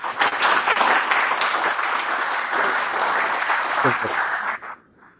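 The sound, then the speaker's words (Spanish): Audience applause at a conference talk on free software communities: dense, steady clapping that holds strongly for several seconds and then quickly dies away near the end. “vamos a darle un fuerte aplauso con el tema de comunidades de software libre.”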